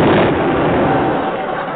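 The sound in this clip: A cannon firing, one loud boom at the very start that rolls into a long, rumbling decay.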